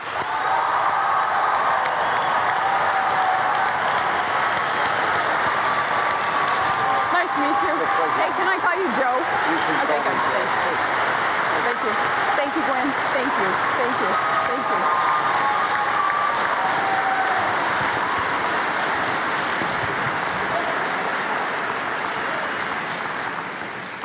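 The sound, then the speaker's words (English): A debate-hall audience gives steady applause welcoming Governor Palin and Senator Biden at the 2008 vice-presidential debate. The dense, continuous clapping holds at an even, loud level for the full length before easing slightly at the very end. “The audience here in the hall has promised to remain very polite. No cheers, applause, no untoward outbursts. Except right at this minute now as we welcome Governor Palin and Senator Biden.”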